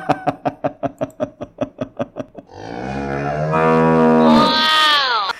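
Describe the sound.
A cow moos in a long, loud, low bellow that swells and rises in pitch near its end. Before it comes a quick run of short, evenly spaced pulses. No voices are heard.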